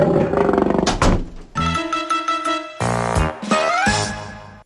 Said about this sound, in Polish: A to tygrys, a to tygrys